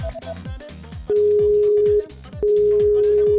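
Telephone line tone while placing a call, two long steady beeps with a short gap between them, over rhythmic background music.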